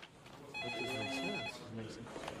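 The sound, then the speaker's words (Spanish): A telephone rings with a single electronic burst of high, steady tones lasting about a second, fairly faint overall. “El 6 de agosto, el agente Alpert recibió una llamada de Sean Taylor”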